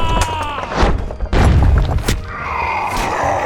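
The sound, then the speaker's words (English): A ballista fires during a battle to defend a keep, with a few heavy booms and thuds loud over a rumbling background. “Man the ballista! They were ready for us. Fire!”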